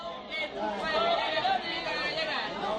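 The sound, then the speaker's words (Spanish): Lively chatter fills a beach bar (chiringuito) in Rincón de la Victoria, Málaga: many overlapping voices form a steady, moderately loud babble with no single clear speaker standing out. “Es el sonido de los chiringuitos. Antonio tiene un chiringuito en Málaga, en el Rincón de la Victoria.”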